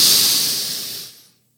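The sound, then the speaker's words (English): A single airy inhale, a bright hiss of breath drawn in that tapers away into silence as the breath is held. “Inhaling, holding the breath”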